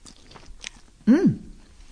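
Chewing noodles and shelled clams in a butter soup with parsley: soft, faint mouth sounds and then one short, louder bite with a squeaky, moist quality before things go quiet again.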